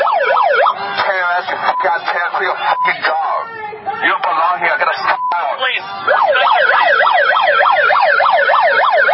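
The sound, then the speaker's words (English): An amplified noise device at a protest outside a Planned Parenthood blares a loud, oscillating siren-like wail that rises and falls rapidly, broken in the middle by shouting voices before the wailing resumes alone. “And he continues to assault people with the amplified noise device in their face.”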